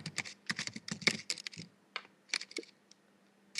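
Rapid typing on a computer keyboard: many quick, crisp key clicks in irregular bursts with short pauses, fairly quiet and with no talk.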